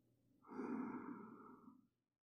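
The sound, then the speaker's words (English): A slow, deep breath drawn in through the nose and let out through the mouth, heard as one long, soft, airy rush that swells quickly, holds, then tapers away to silence. “now take a slow, deep breath in through your nose, and exhale slowly through your mouth.”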